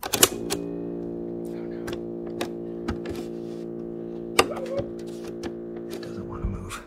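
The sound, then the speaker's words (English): A cassette put back together by hand is tried in a tape player, giving a steady low hum broken by scattered mechanical clicks and a few sharper knocks at irregular intervals. “It looked functional. Yeah. I don't see why it shouldn't play at this point. And so we popped it into my tape player.”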